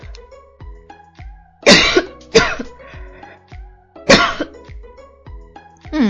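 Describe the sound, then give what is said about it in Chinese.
A few sharp, loud coughs burst out one after another with short gaps between them, mixed with throat clearing and quieter breathy sounds in between. “这是不是做节目的一个大忌呢就是坐着坐着然后就咳嗽啊”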